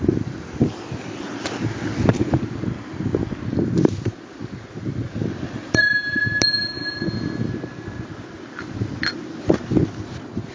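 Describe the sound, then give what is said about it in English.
Meditation bells rung to open a meditation session, a bright ringing tone rising out of a steady rumbling background noise and sustaining for about two seconds before fading away. “knowing that as I ring the bells to start the meditation proper,”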